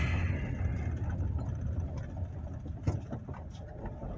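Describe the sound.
A car drives along a road, its engine giving a steady low rumble with a faint hiss of road noise that holds at an even level throughout.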